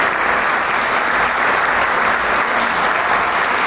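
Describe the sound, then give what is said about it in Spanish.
Steady, dense applause from a concert audience after a baroque performance by a small chamber orchestra with soloists, a continuous loud wash of clapping that holds level throughout without pause. “todo mundo aplaude a estos grandes que esta noche nos están dando”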